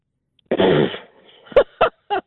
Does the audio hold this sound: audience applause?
no